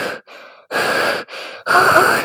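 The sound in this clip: Deep, laboured breathing heard alone: five rough, breathy draws and exhales alternate between quieter and louder, with short gaps between them.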